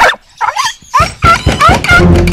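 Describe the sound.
A dog kept hidden in a house barks and yips in several short, high bursts, with a whimpering quality between them.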